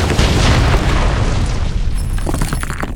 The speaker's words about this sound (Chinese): 但又一道更加猛烈的能量波在兽人们面前发生了爆炸